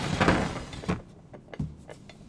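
Sliding door opened to bring in a meal: a short rough sliding rush, then a few soft knocks and taps as it settles.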